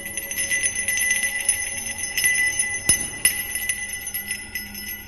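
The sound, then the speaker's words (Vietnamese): A bronze bell rings with many light, quick strikes that leave steady, bright, high tones sustaining throughout, with a couple of sharper hits midway. “Gia Huy ở gần đó đã nhanh trí lôi cái chuông đồng, bảo vật của gia tộc.”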